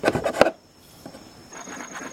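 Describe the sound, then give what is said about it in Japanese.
Wood being scraped and shaved thin by hand: a quick run of rhythmic, rasping strokes, then quieter, softer scraping. “ひたすら削れ。 削るよ。”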